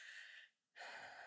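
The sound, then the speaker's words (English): A person takes a deep breath: two soft, airy breath sounds separated by a brief silence, with no speech. “I'm taking a deep breath.”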